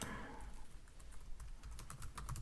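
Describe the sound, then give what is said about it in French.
Typing on a computer keyboard while a message is written for social media: a fast, irregular run of many soft key clicks, faint and alone. “je vais l'écrire là sur Twitter”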